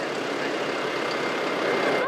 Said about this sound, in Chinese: 小梁开车领路，带着收割机回自己家的村庄。